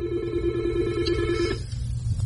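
A telephone rings as a caller is put through, giving a steady, buzzing electronic tone that holds for about a second and a half and then cuts off, leaving a low background hum.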